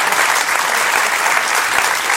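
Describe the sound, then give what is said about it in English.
Audience applause fills the room as guests come back in and look for seats, a dense, steady wash of clapping from many hands that stays even and loud from start to finish with no talk over it. “Give it a round of applause.”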